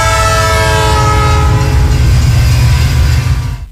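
A train horn blares in one long, steady chord over the heavy low rumble of a train. It stays loud for nearly the whole clip, then cuts off abruptly.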